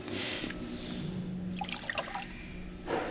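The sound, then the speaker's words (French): Water is poured onto ground coffee, 10 grams to 130 grams of water, to mix them. A soft trickle carries small drips and splashes that thicken toward the end, fairly quiet, with no one talking. “Donc on va mettre 10 grammes de café pour 130 grammes d'eau. L'idée, c'est de mélanger le café et l'eau.”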